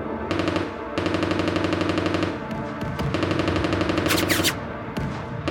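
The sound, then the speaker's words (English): Machine gun fire on a churned battlefield, shooting from the ruins of a farmhouse: a few long bursts of rapid, evenly pulsed shots, loud and harsh with brief gaps between them. “A machine gun opened up on us from the ruins of a farmhouse”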